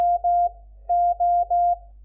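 Morse code practice tone played at a faster speed, steady mid-pitched beeps all at the same pitch: two beeps, a short pause, then three more in quick succession.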